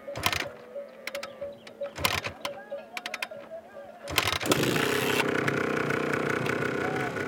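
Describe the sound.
A rusty moped is kick-started: several bursts of clattering, rattling attempts are separated by pauses, then the engine catches and runs in a loud, steady, buzzing drone.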